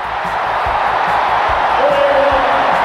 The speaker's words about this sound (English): Hornets win the game at the buzzer. Listen to this crowd.